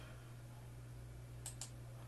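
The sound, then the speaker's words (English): Two quick, sharp computer mouse clicks land close together near the end, over a low, steady electrical hum. “There we go. I had to click twice.”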